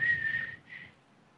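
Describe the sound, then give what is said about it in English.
A person whistles to imitate the whistle of a device worked by a single switch like a light switch: a steady high note, a brief gap, then a shorter second note, heard alone. “It has one switch. It's like a light switch. Yep. And you get a whistle. You go...”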